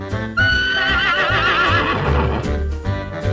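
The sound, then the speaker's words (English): A horse neighs loudly in one long whinny with a shaking, wavering high pitch that fades into lower breathy sounds. “Horse.”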